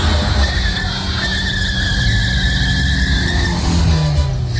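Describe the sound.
Motorbike braking hard and skidding in traffic, its tyres giving a sustained hissing squeal over a dense, rumbling traffic roar that stays loud and continuous throughout.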